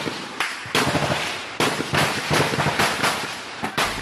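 Gunfire in a forest during fighting in Masisi territory: many sharp, loud shots and bursts crack out in an irregular series with no voices.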